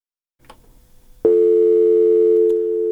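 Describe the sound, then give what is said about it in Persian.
A telephone tone after a call cuts off, starting abruptly after a brief faint rustle and then holding one loud, even pitch without a break to the end. “به تماس ما با محمد صالح سلجوقی، یکی از اعضای ولسی جرگه افغانستان قطع شد”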